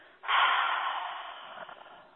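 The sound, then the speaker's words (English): A deep breath during a guided breathing exercise: one long, audible rush of air through the nose and mouth that starts abruptly and fades gradually over about two seconds, soft and alone. “And again, in through your nose and exhale through your mouth.”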